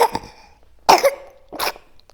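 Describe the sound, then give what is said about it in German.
A baby coughing, with a few short, sharp coughs separated by brief pauses and no voices in between. “Baby hat gehustet.”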